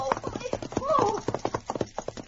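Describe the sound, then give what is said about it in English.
Horse hoofbeats from a rider galloping on a trail: a quick, steady clip-clop of many hoof strikes, with a brief tonal cry midway. “A moment she thought that she was safe, and then she heard hoofbeats close behind.”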